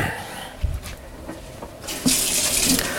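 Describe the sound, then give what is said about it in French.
Cold tap water runs into a saucepan holding cabbages and leek for a salted-meat stew. It is a steady rushing hiss that turns louder and brighter partway through, with a few small clunks early on. “On met de l'eau froide.”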